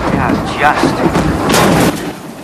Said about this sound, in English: An explosion throws a piece of shrapnel into the waist of the plane. It lands on one of Danny's notebooks, scorching it. Smoke begins to appear.